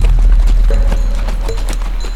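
Horses' hooves clop steadily as riders enter a canyon, a dense, continuous patter of many hoofbeats over a low rumble.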